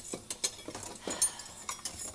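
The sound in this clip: Silverware clinks and clatters as it is taken out of a dishwasher, with a string of light metallic clicks and taps at irregular intervals, fairly faint.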